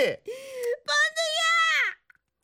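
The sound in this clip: A young woman, tipsy from drinking, cries in a few drawn-out, high-pitched wailing sobs, the last one sliding downward before trailing off into brief quiet sniffles.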